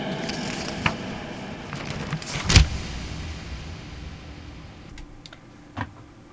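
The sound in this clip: A computer keyboard is typed on in a few scattered, sharp key clicks, irregularly spaced over a steady low background hiss.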